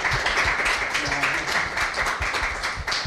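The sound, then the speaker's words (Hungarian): Audience in a café applauding to welcome a performer before an evening show, a dense, steady patter of many hands clapping with a voice heard among it. “egy nagy tapssal köszöntjük őt itt a kávézóban.”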